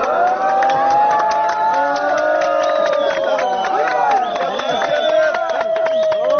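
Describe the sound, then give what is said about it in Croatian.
A crowd of refugees shouts and cheers at Hungarian soldiers reinforcing the metal border fence between Serbia and Hungary with barbed wire. Many loud, overlapping voices call out continuously throughout. “Aplauzom i ironičnim povicima bravo, grupa izbjeglica je pozdravila mađarske vojnike koji su limenu ogradu postavljenu između Srbije i Mađarske dodatno ojačavali bodljikavom žicom.”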